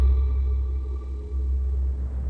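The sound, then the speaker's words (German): Deep thunder rumbling during a thunderstorm, a low, heavy roll that stays loud and fairly steady for the whole stretch, with no voices over it. “Gewitter, das muss Gewitter sein. Ja, genau, deswegen der Stromausfall. Da ist irgendwo der Blitz eingeschlagen.”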